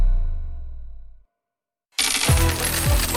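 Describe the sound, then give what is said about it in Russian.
An alluring ringing chime fades away, then after a short silence a bright burst of metallic clinking, like dropping coins, follows loudly. “Слышишь этот манящий звон?”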